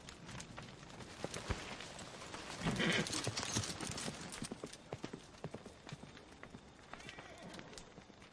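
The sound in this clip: Hooves clop as a horse is ridden out of a courtyard, a steady series of sharp clops over a continuous rustling background.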